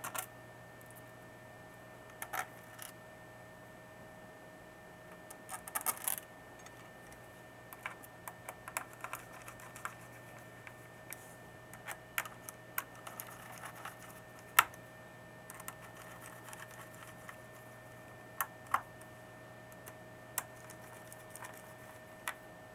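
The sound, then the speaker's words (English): Tiny metallic clicks and ticks of a screwdriver reinserting Torx T6 screws into a device case: many faint, irregular taps scattered over a quiet, steady background hum, with no talk. “I'm going to start by reinserting the uh, Torx T6 screws again first through the top of the case here. and then the four screws along the back.”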